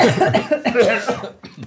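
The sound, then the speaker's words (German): A colleague coughs, a few rough, harsh bursts in quick succession with short breaths between, fairly loud and with no talk. “Also kollegiales Husten kann ich nicht drin lassen.”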